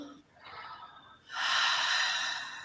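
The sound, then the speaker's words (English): Deep breathing during a breathing exercise: a softer breath, then a long, loud, airy breath that holds steady and tails off slightly. “Let's breathe again.”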